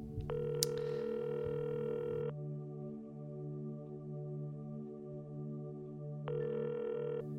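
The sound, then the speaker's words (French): A telephone ringing tone sounds as an outgoing call goes through: one long tone burst, a gap of about four seconds, then a second burst begins, all over a faint steady low hum. “je, vais appeler une de mes, une de mes adeptes”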